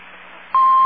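A telephone line gives faint hiss, then a loud, steady electronic touch-tone beep cuts in abruptly halfway through and holds to the end.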